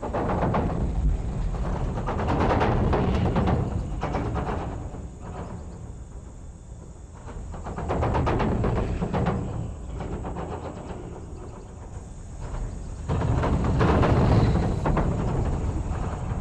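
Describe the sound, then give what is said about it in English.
Bicycles circle the steep wooden track of the Rochester Hills Velodrome at Bloomer Park, Michigan, making a continuous rumbling hum with rattling and creaking from the boards that swells and fades as riders pass. “The sounds you're hearing are recorded at the Rochester Hills Velodrome at Bloomer Park, Rochester Hills, Michigan.”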